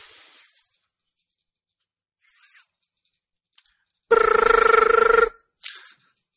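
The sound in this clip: A single ringback tone from an outgoing phone call, buzzy and about a second long, sounding alone after a few faint, brief noises in near silence.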